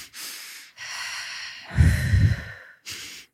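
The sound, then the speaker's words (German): Two quick excited inhalations made as a breathing demonstration, sharp airy intakes around a heavier snort-like breath in the middle, followed by a brief final breath, moderately loud with no speech. “wenn wir so sehr aufgeregt sind, dass wir so zweimal schnell einatmen, dieses.”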